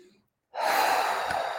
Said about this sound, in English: So let's take a deep breath together.